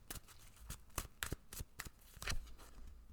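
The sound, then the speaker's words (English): Tarot cards are shuffled by hand in quiet, crisp riffling bursts that come in a quick irregular series, each a short papery snap. “So let's go ahead and pull a tarot card.”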